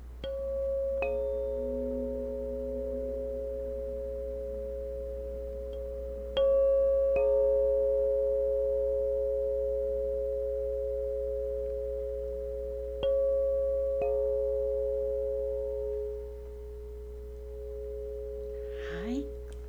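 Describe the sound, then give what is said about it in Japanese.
Tuning forks tuned to the Om tone and the new moon are struck several times, each sharp tap followed by pure, sustained ringing tones that overlap and slowly fade. “まずはリスナーの皆さんに音叉って一体どんな音なのっていうのをちょっと聞いてもらいたいなと思いますが、よろしいでしょうか。”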